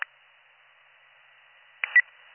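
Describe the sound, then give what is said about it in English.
A dispatcher's telephone dials out, giving a brief beep, then a faint steady tone, then a couple of short, sharp beeps close together near the end. “The number wasn't going through, let me dial out.”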